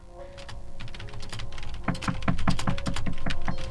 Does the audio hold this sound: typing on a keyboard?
yes